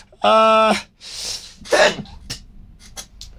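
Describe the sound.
A loud, breathy sneeze bursts out after a short voiced sound, followed by a few faint clicks.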